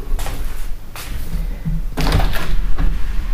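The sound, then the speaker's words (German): Windows being opened to let in cold winter air: a few dull clunks and rattles from the frames and handles, standing out over a steady background noise with no talk. “Dann werde ich Folgendes machen werde einfach mal die Fenster öffnen.”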